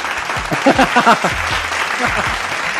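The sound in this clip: Audience applause and cheering at a live comedy show, a loud burst of clapping with voices calling out over it throughout.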